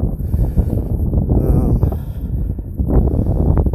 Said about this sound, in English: Little chilly, wind's blowing a little bit.